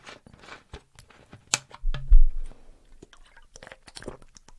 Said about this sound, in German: Jetzt muss ich mal ganz kurz einen Schluck trinken.